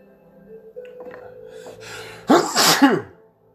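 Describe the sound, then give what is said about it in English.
One person's sneeze erupts as a loud, sharp burst after a quiet lead-in of breathy sounds, then fades quickly. “first sneeze on my podcast ever.”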